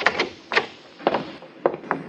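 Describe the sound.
A door opening, heard as a few separate clunks and rattles spaced unevenly, each sharp and brief, with quiet between them.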